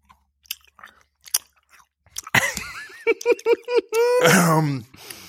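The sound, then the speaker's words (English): Wet chewing of gooey, blue-flavoured candy-like food: scattered soft smacks and clicks, then squishy, squelching mouth noises mixed with murmured voiced sounds, ending in a denser burst of sticky chewing. “The mouthfeel of the goo is something special, let me tell you. Those of you that don't like wet eating noises, sorry.”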